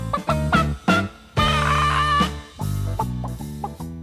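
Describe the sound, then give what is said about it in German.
Chickens cackle in a loud run of short, bright clucks, broken by one longer drawn-out squawk, heard alone without talk. “Was für ein Gegacker.”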